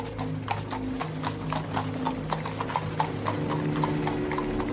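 Steady clip-clop of a horse-drawn coach as the coachman drives off again along a road beside a forest: many even hoofbeats in a continuous rhythm over a sustained low tonal backdrop.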